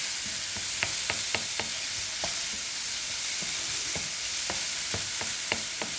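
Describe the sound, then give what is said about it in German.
Food sizzles steadily in a pan for a rice dish with a tablespoon of added oil. A utensil scrapes and taps against the pan in a few short bursts of stirring, with no talk. “Ich gebe jetzt einen Esslöffel Öl dazu, weil jetzt wird es bei mir schon ein bisschen trocken.”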